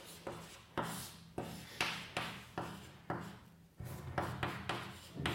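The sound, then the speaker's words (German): Hand-writing an integral, heard as a run of many scratchy, rasping pen strokes, each quick and fading before the next, in a fairly even rhythm. It is quiet, with no talk. “Ja, ich schreibe einfach ein Integral hin.”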